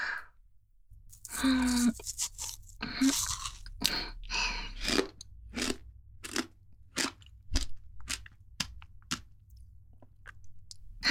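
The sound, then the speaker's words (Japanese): Someone eats ice cream, chewing and crunching through many short, crisp bites in an uneven rhythm over a low, steady hum. “アイス買ってきたんだけど、食べる？じゃあ、はい。私も食べよっと。”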